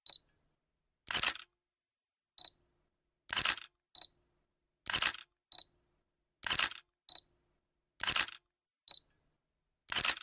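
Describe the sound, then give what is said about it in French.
A camera photographing children in a large living room gives six shutter releases, each a crisp mechanical snap preceded by a short, high electronic beep, spaced at fairly regular intervals against near silence. “La maman d'Émile et Margot, la reine de la monstrie du milieu, a décidé de prendre en photo les enfants dans le grand salon pour envoyer leur portrait à leur mamie.”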